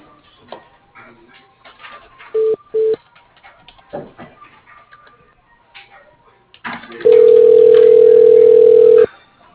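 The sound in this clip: Telephone line tones sound as a call is transferred to voicemail: two short beeps, then a long, steady, loud tone lasting about two seconds, with faint line noise and clicks before it.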